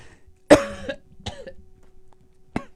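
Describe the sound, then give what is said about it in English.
Three coughs from someone choking on their own spit. The first is the loudest and harshest, followed by a softer cough and then a final brief one after a pause. “as I choke on my own spit, that doesn't happen yet. Excuse me.”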